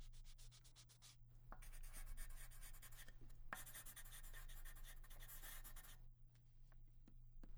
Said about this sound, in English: What are you doing? Making notes. Are you writing in Grotta? No, I'm writing in math.